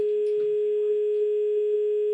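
A telephone dial tone sounds while a live call is being placed: one steady, unwavering pitch that holds at even loudness for the whole stretch.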